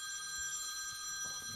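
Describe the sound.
A telephone rings with a faint, steady electronic tone that holds through the whole moment, with no voices over it.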